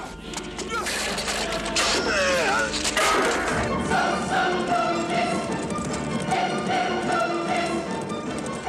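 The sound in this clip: Hoofbeats of horses ridden at speed by knights heading to a rescue, set deep under loud, dense orchestral and choral film music that dominates throughout, the hooves forming a steady, muffled rhythmic pulse beneath the swelling score.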